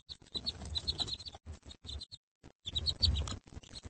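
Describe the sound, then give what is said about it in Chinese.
Newly hatched baby birds chirping: many thin, high peeps in quick clustered bursts separated by brief pauses, faint overall. “幼鸟们叽叽喳喳地来到这个世界上。”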